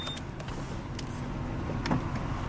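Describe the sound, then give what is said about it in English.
A car driving down a road by a ranch, a steady rumble of engine and tyre noise with faint rattles on top. “Comes somebody down the road here. A lot of traffic, see, as you can see. We got a car. We got a traffic jam here. We got a car coming down the road today.”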